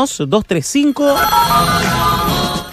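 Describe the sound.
A landline telephone at a radio station rings in steady, bright electronic tones that begin after a moment of talk and carry on to the end.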